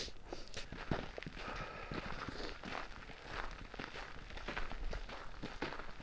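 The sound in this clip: Footsteps cross a churchyard, walking up to a grave. A faint, steady series of many paced steps continues with no voices.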